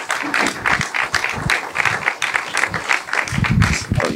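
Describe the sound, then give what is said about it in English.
Audience applause greets a speaker's introduction, a thick patter of many hands clapping with uneven surges and dips, fairly loud throughout. “So put your hands together and let's welcome Josh.”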